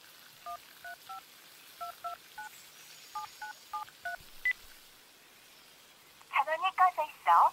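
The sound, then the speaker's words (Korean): Telephone keypad tones as someone dials a call: a quick run of short, evenly pitched beeps in small clusters, with a single higher beep after them and a louder burst of sound near the end. “큰아버지 오실 적에 막걸리나 좀 사오시라고 전화를 걸었다.”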